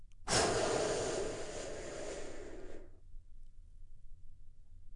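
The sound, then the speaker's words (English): A deep breath taken as a guided healing exercise: one long, airy rush of breath lasting about two and a half seconds, then near silence. “Join me in taking a big, deep healing breath right now.”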